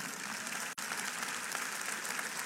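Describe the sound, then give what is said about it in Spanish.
Congregation applause during a church service: dense, steady clapping that fills the whole clip, broken by a single very brief gap near the start, with no voices over it. “Un aplauso al Señor.”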